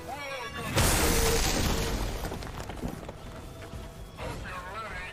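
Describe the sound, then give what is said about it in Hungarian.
A soldier exploding in a turn-based video game featuring Spider-Man: a sudden loud boom that rumbles and slowly decays over several seconds amid game sound effects. “Ó, viszont két ellenféltől mégiscsak megszabadultunk. Hála a felrobbanó katonának.”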